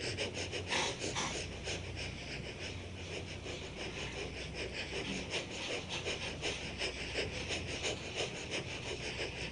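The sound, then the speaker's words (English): Rapid yogic breath of fire during a guided meditation session: many quick, even, airy nasal exhalations in a steady pulsing rhythm, faint and continuous, with no talking. “Continue to do the breath of fire, that's what this is called, but bring the palms together.”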